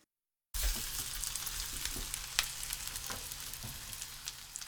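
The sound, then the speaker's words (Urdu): Sardines frying skin-side up in a generous amount of hot oil in a frying pan give a steady, dense sizzle with scattered sharp crackles and pops, heard alone after a moment of silence. “ایک frying pan کو گرم کیجئے اور اس میں روزمرہ سے ذرا ہٹ کر کچھ زیادہ تیل ڈالیے۔ اب اس میں سارڈین مچھلیوں کو اس طرح رکھیں کہ کھال والی سمت اوپر کی”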